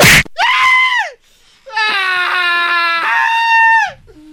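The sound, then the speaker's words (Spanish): A shrill, high-pitched human scream: a short, loud cry that drops in pitch as it ends, a brief pause, then a longer, sustained wavering scream that also falls away at its close. “Ay, gritó muy fino el... Muy fino, Choco.”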